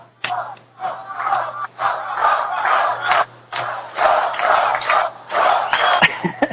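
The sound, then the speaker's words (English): Rally crowd chanting "Trump, Trump" in repeated loud bursts of massed voices, separated by short gaps and rising and falling in rhythmic waves. “Okay, I think a protester showed up because all the audience is pointing. Pointing in some direction in the audience and going, Trump, Trump.”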